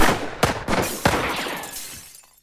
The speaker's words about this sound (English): He shot the gun right out of my hand! Who's going to pay for them bottles?